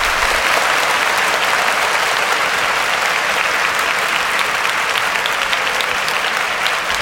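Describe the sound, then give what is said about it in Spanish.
Applause from a large audience fills the whole stretch, dense and steady clapping at an even loudness with no voices or breaks. “¿saben por qué son los aplausos? Porque este es el primer podcast que vamos a hacer.”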